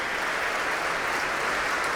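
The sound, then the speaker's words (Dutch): Steady, dense applause from a concert audience at the Concertgebouw in Amsterdam during a standing ovation after a cello concerto with orchestra. The clapping is continuous and even, with no voices standing out. “En een heel groot applaus hier in Amsterdam in het Concertgebouw op 15 mei.”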